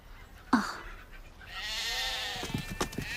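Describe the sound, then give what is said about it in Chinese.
A sheep bleats as cattle and sheep are driven along a road. A sharp knock comes first, then a long wavering bleat, followed by a few faint taps. “舜赶着牛羊上路了。”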